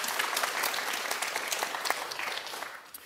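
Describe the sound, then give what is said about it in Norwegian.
Applause from the audience at a local election debate in Vestvågøy, steady clapping that fades toward the end. “Applaus.”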